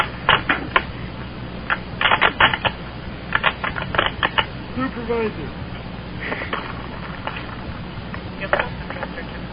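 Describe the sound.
Typing on a keyboard in irregular clusters of quick clicks with brief gaps, moderately loud over a low background hum.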